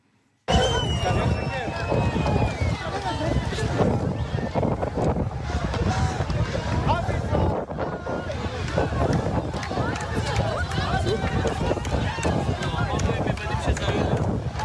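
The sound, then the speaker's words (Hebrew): A crowd on a beach cheers and shouts for joy after a missing child is found. Many voices merge into a dense, continuous roar that starts abruptly and stays loud throughout, with some wind noise. “את צהלות השמחה בחוף, כשהם שומעים שמצאו את הילד, זה הקבוצה שמחפשת אותו”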